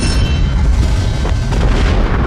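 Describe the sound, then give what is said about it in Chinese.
Sound effect of a landmine made from stone exploding: a loud, dense, deep rumbling roar that fills the whole clip at steady strength, with no clear separate blasts and no voices. “解放战争期间，我军弹药不够，焦裕禄用石头鼓捣出地雷。”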